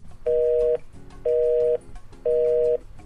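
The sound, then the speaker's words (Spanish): Telephone line ringing for an incoming call: three even electronic tone bursts, each about half a second long, steady in pitch and separated by short gaps, over a faint low background rumble. “hoy tenemos la llamada de Lucía Sánchez”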